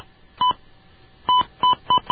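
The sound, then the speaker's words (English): Telephone keypad dialing tones during an attempted call to North Korea: five short, clean electronic beeps, with one alone, a pause, and then four in quicker succession, the last cut off. “I'm going to try it again because I was dialing kind of slow.”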